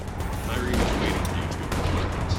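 Rapid bursts of gunfire in a video game, a fairly faint, steady crackle of shots running through the whole moment.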